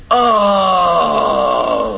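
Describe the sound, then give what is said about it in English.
An audience groans together on request, a low, sustained moan in unison that holds for about two seconds with a gently sinking pitch and strong, steady loudness. “Have you ever groaned for it? Let's all groan.”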